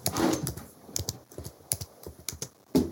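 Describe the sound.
Someone types a quick note on a computer keyboard, producing many sharp, irregular keystroke clicks in fast bursts, with a few louder taps near the start and end and no talking.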